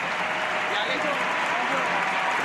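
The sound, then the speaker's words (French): A football stadium crowd at Ullevaal Stadium in Oslo gives an ovation, a steady roar mixed with applause that stays even in level, with talk running over it. “Sur l'ovation là encore du Stade Nouleval d'Oslo.”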